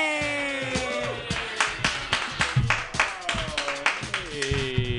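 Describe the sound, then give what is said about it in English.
Audience clapping for the first comedian at a comedy workshop: sharp, irregular claps from a small crowd, with voices cheering over them throughout. “Put your hands together for your first comedian, everybody.”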